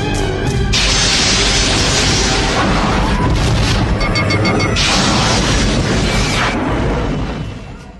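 Phaser fire and booming blasts from a Star Trek II space battle between the USS Reliant and the Enterprise: a dense, loud, continuous roar of crackling energy bursts and impacts that holds for about seven seconds before tailing off.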